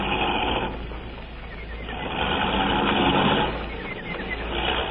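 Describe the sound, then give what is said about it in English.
Motor vehicle engine running, a steady, coarse rumbling drone with no distinct beats. The drone swells gently louder in the middle and again near the end, and no one speaks over it. “Stop that motor.”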